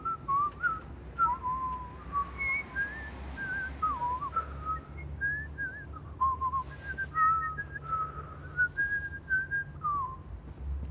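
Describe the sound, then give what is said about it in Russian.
People whistling a wandering tune of many short notes that rise and fall, clear and fairly steady throughout over a faint low hum, with no talk. “Они свистят.”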